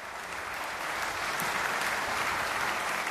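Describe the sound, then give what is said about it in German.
A concert audience applauding in hope of an encore: steady, dense clapping that holds at an even loudness without pause. “Et j'avoue que si j'étais dans le public, je n'arrêterais pas d'applaudir avant d'avoir obtenu un bis. On va voir s'ils l'obtiennent.”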